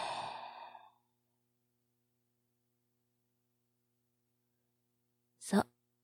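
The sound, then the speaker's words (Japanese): Breathing during a slow, guided relaxation exercise: a soft exhale fading over about a second, then a long silence before one brief, sharp intake of breath. “吸って、吐いて、”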